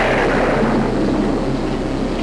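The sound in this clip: Thunder from a storm, a deep continuous rumble that stays loud and even for the whole stretch, with no voices.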